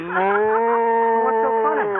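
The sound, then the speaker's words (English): A cow moos in one long, loud, steady low call that lasts nearly the whole clip and wavers slightly near its end. “Now, be a good moo cow and don't try any tricks and we'll get along swell.”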